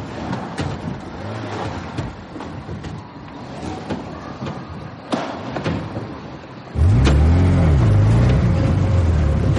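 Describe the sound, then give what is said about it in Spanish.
A car lurching jerkily in fits and starts over a crossing made of logs: a rough, rumbling drive with scattered knocks and thumps, then a louder engine growl with wavering revs in the final seconds. “Acelera un poco, así, eso es. Eso es. Venga, vamos, acelera. Así, muy bien. El coche circula en pellones sobre el paso de troncos.”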